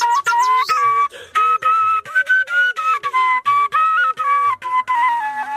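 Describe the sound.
A man whistles a steady mid-high melody in a green valley village, holding many short sustained notes separated by brief breaks in an even rhythm, with no other sounds.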